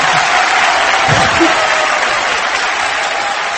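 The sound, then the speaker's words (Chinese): A theatre audience at a stage performance applauds without letup, loud, continuous clapping that holds an even level throughout. “从开始到现在，你们始终是掌声不断。”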